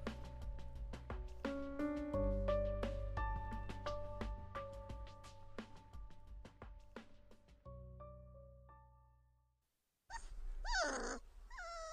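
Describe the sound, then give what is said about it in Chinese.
A dog whimpers and fusses while being fed beneath a staircase. Its short burst of wavering, whiny cries comes at the end, after several seconds of gentle music fade to silence. “池小池蹲在楼梯下喂狗，狗肉不是小狗了，但还是喜欢抱着池小池撒娇。”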